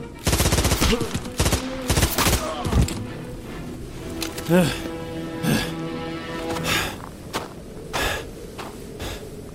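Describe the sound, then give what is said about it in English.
Rapid assault rifle gunfire bursts loudly in a video game, dense volleys at the start followed by scattered sharp shots, with gasps and grunts between them. “Assault rifle bullets nearly tore them in half.”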